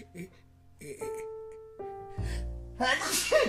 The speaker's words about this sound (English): So, excuse me. That was me sneezing.